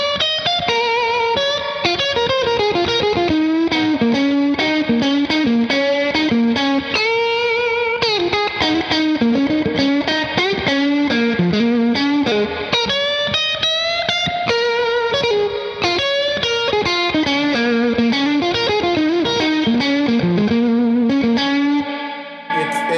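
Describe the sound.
An electric guitar plays on the middle pickup of a Stratocaster through a slightly overdriven amp. It runs a continuous melodic line of sustained, gritty notes with a hollow tone, alone for the whole passage, until a short ringing tail at the end.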